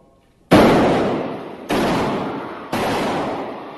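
Three gunshots fired during a shooting inside a church, recorded: three sharp, loud cracks spaced about a second apart, each followed by a long, slowly fading tail.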